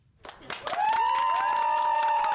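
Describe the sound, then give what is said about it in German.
Cheering and applause from supporters welcoming a released man at Frankfurt Airport. Scattered claps in the first half second build into steady, loud crowd noise with a sustained tonal cheer running through it. “Großer Jubel, als Jens Söhring am Mittag in Frankfurt vor die Mikrofone tritt.”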